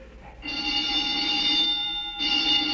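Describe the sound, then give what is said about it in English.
An alarm bell rings loudly in a long, steady, metallic burst, breaks off briefly, then starts ringing again until the end, with no voices. “The old woman must have turned in an alarm.”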